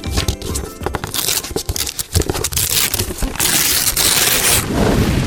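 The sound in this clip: Gift wrapping paper is torn open with loud crinkling, ripping and crumpling, sharp crackles at first and then a denser, continuous rustle.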